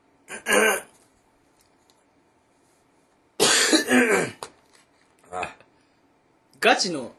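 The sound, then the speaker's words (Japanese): Coughing and harsh throat clearing after soup went down the windpipe, in four separate bursts split by quiet pauses, the second burst longest and most forceful. “いや、スープが気管に入るとやばい。失礼。”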